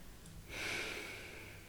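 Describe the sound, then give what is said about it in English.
A soft breath is exhaled through the nose during a guided belly-breathing exercise. The faint, airy hiss swells and then tapers over about a second, with no voice over it. “Now exhale that breath again through your nose.”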